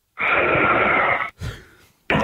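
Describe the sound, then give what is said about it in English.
Heavy breathing comes through a phone line, thin and narrow-sounding: a long, raspy, wheezy exhale, a short breath after it, then another breath starting abruptly at the end. “It was a real heavy breath the first one, wasn't it? It was very Darth Vader-esque.”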